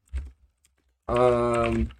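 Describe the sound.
A few soft keystrokes on a computer keyboard as a Patreon description is typed, followed by a person talking.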